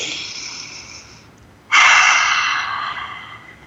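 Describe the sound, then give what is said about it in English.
A deep breath drawn in during a calm group sharing moment: soft, breathy hiss in two sustained stretches, the second starting louder after a brief gap and slowly fading. “Let's breathe that in, peace.”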